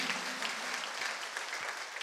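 A church audience claps hands during a Sunday sermon, making a dense, steady and even roar of many hands that lasts the whole short stretch.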